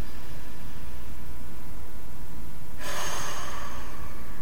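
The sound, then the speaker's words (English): Breathing during a guided breathing exercise, in through the nose and out through the mouth, heard as a continuous airy hiss that turns brighter and more forceful partway through. “Again, inhale through the nose, exhale through the mouth.”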